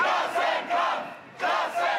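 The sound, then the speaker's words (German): Several thousand people chanting at a demonstration in Kiel against cuts to pensions, health and labour: loud shouted crowd bursts in a quick rhythmic pattern, a few in a row. “Auch in Kiel haben sich laut Polizei mehrere tausend Menschen versammelt, um gegen die Sparpläne bei Rente, Gesundheit und Arbeit zu demonstrieren.”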